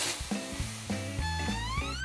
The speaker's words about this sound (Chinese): 你不是先下牛肉吗？啊， 先下牛肉， 一定要先下牛，因为这个一下去就糊了。啊， 我知道，大火，这么大火，